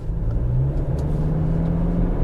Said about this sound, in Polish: Silnik wysokoprężny, ten, który jest tutaj zastosowany, nawet jeżeli jest dobrze rozgrzany